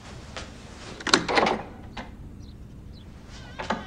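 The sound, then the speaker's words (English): A door is opened by someone leaving a bedroom, heard as a few soft clicks and thuds from the handle and hinges. The loudest bursts are close together near the middle, with fainter knocks before and after and no talk. “Getting out of bed, she grabs a cardigan and goes to the door.”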